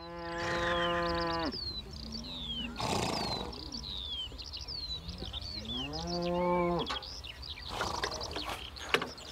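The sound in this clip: Cattle mooing on a pasture they share with thoroughbred horses: a few long, loud lowing calls, with birds chirping almost continuously in between and around them.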